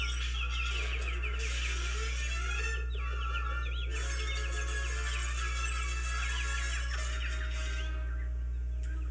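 Cartoon birds chirp and twitter in a 1950 animated film, making rapid, whistly, high calls in a few bursts with short breaks. A steady low hum runs underneath throughout.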